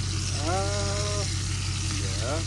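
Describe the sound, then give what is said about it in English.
Burgers deep frying in hot oil give a steady, loud sizzling hiss throughout, with brief voiced sounds rising over it twice. “We got deep fried burgers coming up, ladies and gentlemen.”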